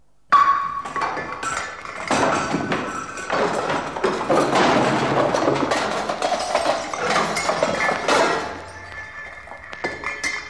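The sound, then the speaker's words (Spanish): A glass bottle of Bacardí rum breaks and spills on the floor: a sudden loud crash, then several seconds of dense clinking and tinkling shards that fade, with one faint tap near the end. “¡Qué avería! No ha quedado ni una gota. ¡Mi ron Bacardí por los suelos!”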